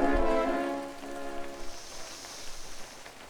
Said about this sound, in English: Rain. Always rain this time of year.